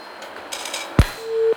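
A sharp click and then one short, steady mid-pitched beep as a telephone call drops on a call-in line.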